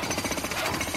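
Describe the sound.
A jackhammer pounds away in rapid, relentless bursts while a playground is being built. The dense, harsh hammering runs continuously and loud the whole time, with no voices.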